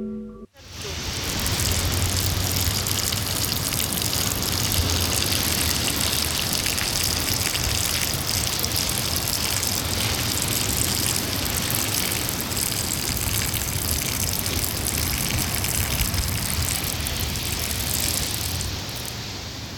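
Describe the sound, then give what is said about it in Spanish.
A powerful stream of urine falling on sand makes a loud, steady gushing hiss with a sizzling edge. It starts abruptly and holds at an even level for almost twenty seconds before easing slightly at the end. “la descripción del sonido es potente como él solo, o chorriño do mexo cae en arena bruando e chisporroteando con potencia desmedida.”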